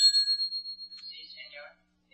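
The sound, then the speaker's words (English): A hotel desk bell rings out with a bright, high metallic tone that sustains for about a second before a fainter wavering tail fades away. “Ring the desk bell, please.”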